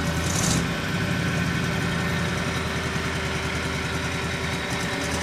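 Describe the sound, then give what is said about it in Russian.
Car engine running in a dense, continuous low rumble with throbbing pulses, loud and steady throughout with no other sounds. “Утихший было мотор машины взревел, и все пространство вокруг наполнилось кисло-горьким дымом.”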